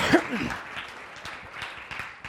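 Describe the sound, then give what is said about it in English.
An audience gives a round of applause for the first artist. Steady clapping runs throughout and swells briefly near the start before settling to an even patter. “Let's give our first artist a round of applause.”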